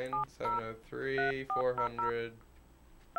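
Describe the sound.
Touch-tone telephone dialing: a few short, clipped dual-tone beeps mixed in among longer harmonic tonal sounds of shifting pitch.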